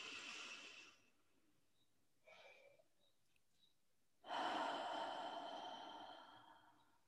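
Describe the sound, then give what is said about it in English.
A person takes a deep breath during a relaxation exercise: a soft breath sound and a brief quieter one come first, then a long, loud, airy inhale that swells and slowly fades. “close your eyes for a minute and take a nice deep breath”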